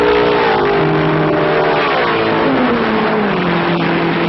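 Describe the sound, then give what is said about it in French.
Race cars roar during an endurance race, a loud, continuous engine drone with harmonic tones whose pitch slides downward midway as the cars press on. “Derrière, les autres pilotes se livrent une lutte de tous les instants. On tente de doubler, on essaie de bloquer. Si bien que dès les premiers virages, cette course d'endurance prend des allures de Grand Prix.”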